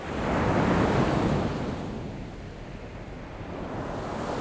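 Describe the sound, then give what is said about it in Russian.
Ocean waves and surf: a broad, loud roar swells over the first second and a half, then settles into a steadier wash. Wind noise runs throughout, with no talk. “Это океан. Это самое большое географическое пространство на нашей планете.”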